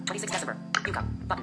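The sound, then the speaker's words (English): A smartphone screen reader set to Bahasa Indonesia speaks in a quick synthetic voice, giving a short burst of clipped, evenly paced speech. “this is the sound of my screen reader.”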